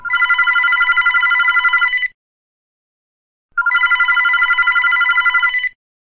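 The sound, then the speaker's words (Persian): A telephone rings in two long electronic trilling bursts of about two seconds each, separated by a brief pause, loud and alone without any talk. “نزدیک ظهر بود که ساسان دوباره زنگ زد”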